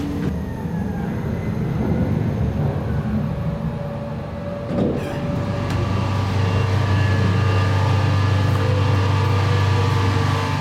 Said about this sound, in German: Und das, was wir hören, das ist das Kühlgerät.